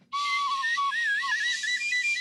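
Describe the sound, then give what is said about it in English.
A whistle blown in one continuous, fairly loud blast of about two seconds. Its high pitch warbles and wobbles up and down throughout, with no other sound alongside. “I got to find my whistle”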